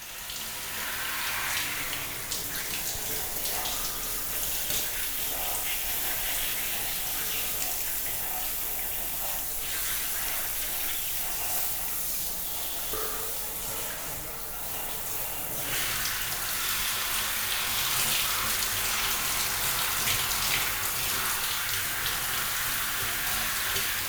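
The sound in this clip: Water rinses off a person during bathing, a continuous, full hiss of pouring and splashing that stays fairly even throughout.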